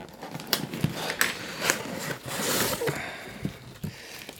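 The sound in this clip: Rustling and crinkling of a gift package being unpacked, the parcel holding a bottle of orange juice and coffee, with a steady run of papery scrapes and several sharp crackles and taps throughout, no voices.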